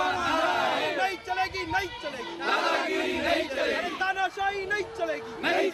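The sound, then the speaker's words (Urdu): Journalists chant slogans at a street protest in Maharashtra against the state government, demanding a law to protect journalists. Many voices overlap in loud, rhythmic bursts with crowd chatter underneath. “Maharashtra کے صحافیوں نے مہاراشٹر کے 252 تعلقے میں صحافی راستے پہ اتر کر احتجاج کیا اور ریاستی حکومت کے خلاف نعرے بازی کرتے ہوئے صحافیوں کی حفاظت کے قانون کی نفاذ کا مطالبہ کیا۔”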